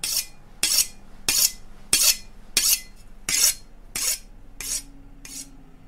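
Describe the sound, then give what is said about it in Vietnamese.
Knife being sharpened: nine even scraping strokes at a steady rhythm, roughly one every two-thirds of a second. Each stroke is a bright, rasping swipe that fades quickly, with no voices. “Tiếng mài dao vẫn loẹt qua loẹt quẹt, kèm theo tiếng phập vang lên dữ dội lắm.”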